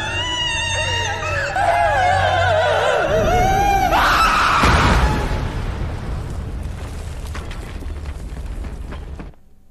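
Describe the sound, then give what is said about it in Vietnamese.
A woman's wailing scream echoes through the night, with high wavering tones over a low hum. A loud burst cuts in partway through, and the sound then trails off into a noisy rumble. “Giật nảy người vì nghe tiếng hét vang vọng đâu đây.”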